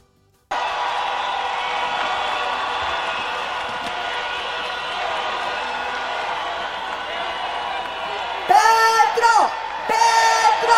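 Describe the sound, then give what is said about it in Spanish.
A large crowd roars and cheers at the closing rally of a 2022 Colombian election campaign in Bogotá's Plaza de Bolívar. The dense, steady roar runs throughout, and louder rhythmic chanting voices rise out of it near the end. “Al grito de Petro, Petro, recibieron al candidato del pacto histórico en la Plaza de Bolívar.”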